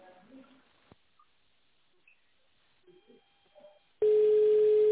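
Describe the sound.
A telephone ringback tone sounds while a call to an office line is being connected. Near silence with a few faint noises gives way to a single steady, low-pitched tone near the end.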